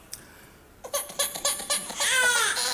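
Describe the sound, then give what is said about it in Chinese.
A baby cries: a run of short, high, rhythmic sobs builds quickly into a sustained, louder wail. “哎，这咋还哭？咋的？哭了？哭了？哦，饿了这？”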